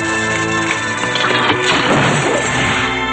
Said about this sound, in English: A shard of glass crashes into the lab, and they look down at it.